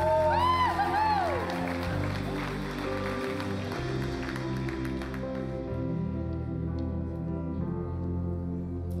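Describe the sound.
A church audience claps and cheers to welcome a speaker before the communion message, with steady applause over sustained music.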